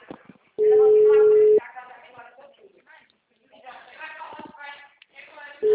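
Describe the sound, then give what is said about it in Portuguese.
A telephone line tone sounds as a call is placed: a steady one-second tone, then a few seconds of quiet talk and shuffling, then the same tone starting again at the end. “deixa eu ligar para o meu cliente.”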